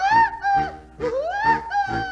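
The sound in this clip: A cartoon woodpecker song: five bright, harmonic notes in a bouncing rhythm, the middle one sliding upward in pitch, each note separated by a brief dip.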